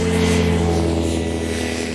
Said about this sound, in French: Nous étions à bord de votre nouvel avion, votre hydravion.